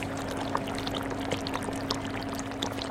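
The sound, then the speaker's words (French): Sugar syrup bubbles as it boils and thickens, giving many soft, rounded pops and gurgles over a steady low hum. The sound is continuous and fairly faint, with no talk. “Vous entendez les bulles, elles épaississent. On entend petit à petit. Elles sont plus sourdes, plus rondes.”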